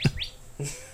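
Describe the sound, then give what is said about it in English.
A little bird gives a few short, bright chirps with quick upward sweeps, faint and alone with no talk. “There's a little bird chirping on.”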